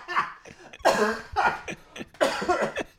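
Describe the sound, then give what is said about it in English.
A person coughs and chokes on a biscuit, letting out several harsh, strained coughs in uneven bursts, with rough gasps between them. “Oh, choking on biscuit.”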